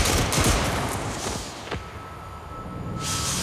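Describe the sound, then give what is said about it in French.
A firing squad's rifle volley rings out as a rattling burst of overlapping gunshots, followed by a sharp single crack and a fading noisy tail, with no voices. “Et finalement, il est donc condamné à mort et fusillé. Formez le peloton. On joue. Feu.”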